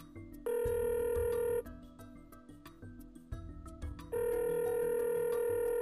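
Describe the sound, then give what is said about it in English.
A phone ringing out on an outgoing call: two long electronic ring bursts separated by a pause, the second running to the end, with a faint ticking and muffled background noise between them. “Dialing him now.”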